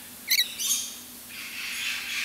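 Birds call at feeding time as they are given porridge, with a couple of short, sharp high chirps followed by a softer, breathy rustling wash of higher sound.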